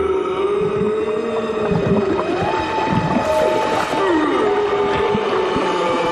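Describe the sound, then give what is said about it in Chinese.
A moose bellows in long, drawn-out moaning calls that glide up and down in pitch. The calls run continuously over a dense, rumbling background noise. “原来你不是什么咆哮怪兽，而是驼鹿。”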